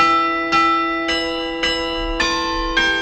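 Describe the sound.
Church bells ring in a steady run of strikes about every half second. Each is a bright metallic clang whose long humming tail overlaps the next, and no voices are heard.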